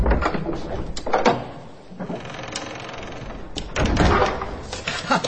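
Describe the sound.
A door is pushed shut and locked, giving a few solid clunks and rattling latch sounds over a steady low background rumble.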